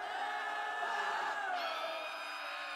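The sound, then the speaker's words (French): A crowd in a cave howls in pain and terror. Many overlapping wails and shrieks form a loud, unbroken chorus, and some voices slide downward in pitch midway through. “Un concert de hurlements de douleur et de terreur s'éleva.”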